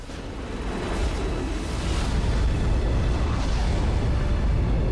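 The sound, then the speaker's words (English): Film explosions blowing up rebel forces in raging fireballs, heard as a deep, heavy rumbling roar that builds over the first second and then holds loud and continuous without distinct separate blasts. “In a series of dramatic explosions, the rebel forces are blown to kingdom come.”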